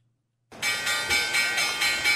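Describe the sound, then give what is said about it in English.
A stock market closing bell rings. After a brief silence it breaks into a bright, loud, sustained electric-bell clang that pulses in steady repeats. “let's hit the closing bell, see if we got any money to buy some porn on the line”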